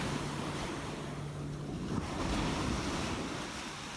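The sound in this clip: Ocean waves make a continuous rushing surf with wind noise mixed in, steady and fairly loud throughout, with no voices.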